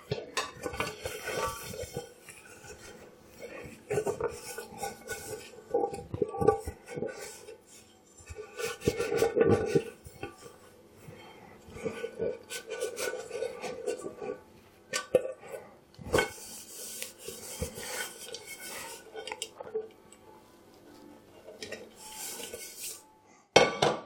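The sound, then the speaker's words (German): Dishes clink and clatter while a pot is dried by hand: many irregular metallic knocks, chinks and rubbing scrapes come in uneven bursts, some louder than others, with no talking. “Und den Topf trockne ich auch noch ab.”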